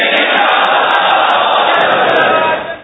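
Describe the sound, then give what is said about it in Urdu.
A crowd loudly shouting the slogan Insha'Allah together with raised hands at an Islamic religious gathering: a dense, sustained roar of many voices that holds for about two and a half seconds, then quickly fades. “زوردار انشاءاللہ کا ہاتھ اٹھا کر نعرہ لگائیں کہ ہم بھی اس تفسیر کے سننے میں ضرور شرکت کریں گے”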